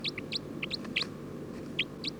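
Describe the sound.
Short, high bird calls from a bird recorded in the field come in scattered bursts of chirps over a steady low background hiss. The calls are fairly faint and no one speaks.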